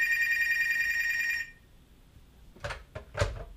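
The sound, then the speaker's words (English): A landline telephone rings with a bright, steady electronic trill for about a second and a half, then falls silent, followed by a few dull knocks and handling thumps. “sketchy phone call there on our landline”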